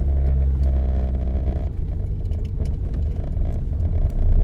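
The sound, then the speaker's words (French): A car's engine runs as the car is driven, giving a continuous low rumble with light rattling and slight shifts in level throughout. No voices are heard. “C'est pas facile de conduire tout en parlant. C'est pas facile de penser, de conduire, d'exister tout en parlant.”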